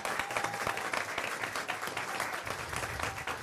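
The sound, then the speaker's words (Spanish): Loud, steady applause from the audience at a public debate about a Virgen del Socavón artwork, many hands clapping in a continuous, busy rattle throughout. “Quiero pedirles que empecemos con un fuerte aplauso para Rilda”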